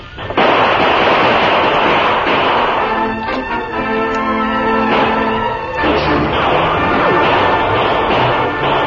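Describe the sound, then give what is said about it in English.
Gunshots fired at a shack from every side during a shootout with outlaws: several loud cracks burst through a dense, noisy background that stays busy throughout. “Shots come from every side of building.”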